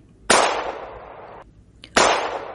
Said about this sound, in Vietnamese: Một tiếng súng vang lên